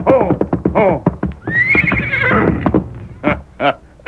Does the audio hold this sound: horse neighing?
yes

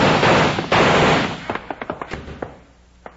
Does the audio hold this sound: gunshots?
yes

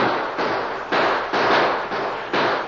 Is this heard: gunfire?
yes

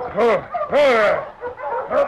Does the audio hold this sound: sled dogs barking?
yes

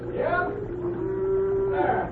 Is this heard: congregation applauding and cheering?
no

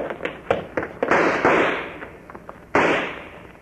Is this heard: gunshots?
yes

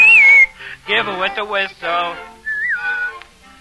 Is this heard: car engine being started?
no

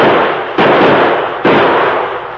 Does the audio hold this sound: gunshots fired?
yes

